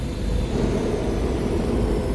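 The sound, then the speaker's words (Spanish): A space schooner landing at an inn's dock, rendered as a loud, steady low engine rumble with a faint high whine above it. It stays unbroken and even throughout, with no voices. “Un momento después, Jim vio aterrizar una goleta en el embarcadero de la posada.”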